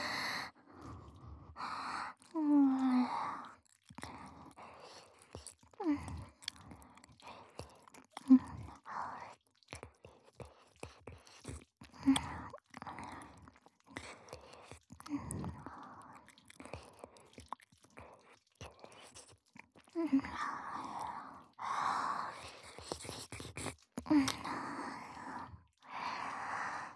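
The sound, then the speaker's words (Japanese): Wet saliva mouth sounds made close to the ear, many soft, sticky smacks, clicks and squelches in an irregular stream, with breathing between them, quiet throughout. “唾液の音、耳元でいっぱい聞かせてあげるね”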